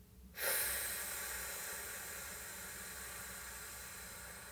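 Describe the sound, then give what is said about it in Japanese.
A slow, deep exhale during a breathing exercise: a steady breathy rush of air that starts abruptly and holds for about four seconds, fading only slightly, with no voice. “吸って、たっぷり吸って、吐きます。”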